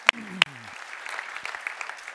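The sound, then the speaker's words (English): A church audience starts to applaud, with two sharp claps at the start followed by a brief spread of lighter clapping, and a voice briefly heard near the start. “And so can we applaud God at work in our community?”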